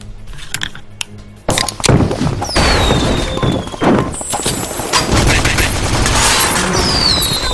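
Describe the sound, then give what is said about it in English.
Video-game gunfire: after a quieter opening, a dense run of loud shots, thuds and booms breaks out and carries on almost without pause to the end. “you shot me”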